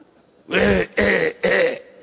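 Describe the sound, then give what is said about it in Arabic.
A man's voice imitates a man coughing, giving three harsh, evenly spaced cough bursts with short pauses between them. “اللصوص ما تدخل بيته طول الليل وهو يسعل ويكح”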